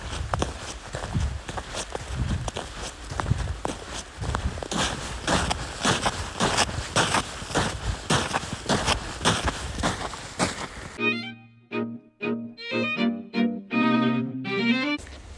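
Footsteps crunch across packed, firmed-up snow on a morning walk in a local park, keeping a steady rhythm through most of the stretch. Near the end the texture shifts and tonal sounds appear.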